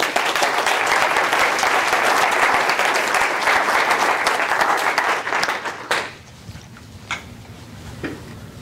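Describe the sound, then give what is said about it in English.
An audience applauds to welcome a bank executive as the speaker. The clapping is dense and sustained for about six seconds, then drops away to near quiet with a few scattered sounds. “And join me in welcoming Robert Wilmers.”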